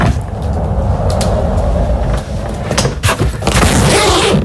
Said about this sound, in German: Ja, das ist dein Rollkoffer. Du bist mit deinem Koffer entlang gerollt und hast ihn dann aufgemacht.